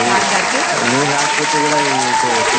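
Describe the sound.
Applause from many hands clapping runs loud and continuous through the whole clip, with a person talking over it.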